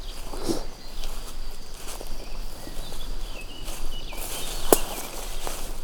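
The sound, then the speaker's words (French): Footsteps of people walking across an open pasture, soft and irregular, barely rising above a steady, faint outdoor hiss with a few brief rustles. “Puisque nous marchons à présent plein champ.”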